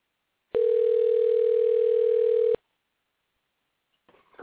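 A single steady electronic telephone tone, an incoming caller coming through on the phone line, holds at one even pitch for about two seconds, then cuts off abruptly, leaving near silence with a faint rustle at the end.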